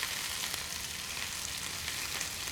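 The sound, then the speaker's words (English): Pak choi leaves frying in a pan while being stirred gently, giving a steady, bright sizzle with a continuous crackling hiss and no talk. “adds the leaves of the pak choi to the pan and begins to stir them gently”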